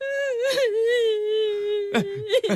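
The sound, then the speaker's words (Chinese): A person cries in a long, sustained wailing moan with a wavering pitch, then breaks into a few short, choked sobs near the end. “你别哭了好不好？”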